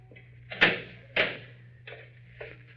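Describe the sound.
Door being shut to lock a man in aboard a ship: four knocking thumps, the first two sharp and loud, the last two softer.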